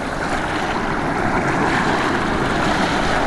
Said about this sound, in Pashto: په پیل کې تاسو د کونړ د مست سیند غاړو ته ورولو